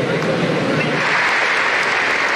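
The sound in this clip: Applause and a heartfelt ovation from the crowd at a presidential inauguration, following a central speech by the Senate president: dense, steady clapping that holds at an even, loud level throughout.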